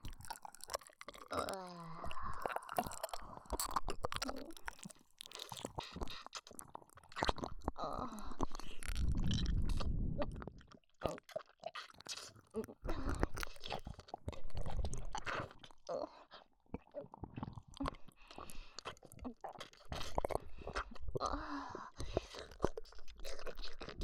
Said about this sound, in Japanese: それじゃいただきます。